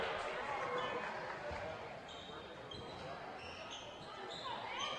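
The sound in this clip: A basketball bounces on a court during a game, with faint, repeated dribbles heard beneath a commentator's talk and steady background noise.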